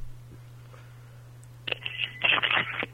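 Electronic telephone tones from a voicemail left by a local number: a low steady hum at first, then a loud burst of chirping, beeping phone signals that fills the second half.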